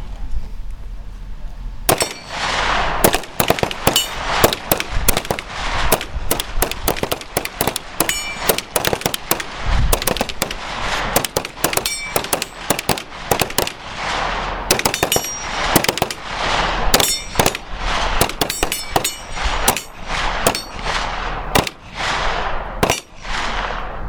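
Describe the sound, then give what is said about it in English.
Gunfire on a shooting range after the command to fire: after a brief quiet start, many sharp, loud shots crack in dense, overlapping bursts and rapid volleys that continue almost without pause. “Cease fire. Block officers inspect and clear all weapons, magazines, collect unused ammunition. Signal when the line is clear. Fire!”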